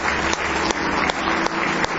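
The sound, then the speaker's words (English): A church audience claps in praise, a steady rhythmic beat of hands striking together in unison over continuous crowd noise. “Somebody say praise the Lord. Give Him one more hand clap of praise tonight.”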